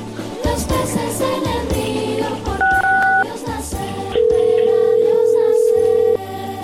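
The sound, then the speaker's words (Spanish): A telephone is dialed for a random call over background music. A short keypad tone sounds first, then a long, steady, loud tone holds for about two seconds before fading back into the music. “se está marcando en este momento. Es una llamada al azar”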